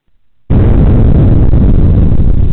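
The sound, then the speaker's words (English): A bomb blast sound effect bursts in suddenly and loudly, then holds as a dense, rumbling roar that continues steadily to the end, with no voices. “I should have put the bomb drop, right? I don't know. Wait. I'm late. I gotta do it. Wait. Hold on. Wait. Bomb blast.”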